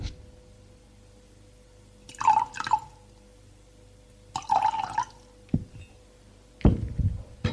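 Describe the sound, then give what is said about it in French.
Water being poured into a glass from a carafe comes in three short splashing bursts separated by quiet, with a faint click between the second and third. “Il remplit le verre d'eau.”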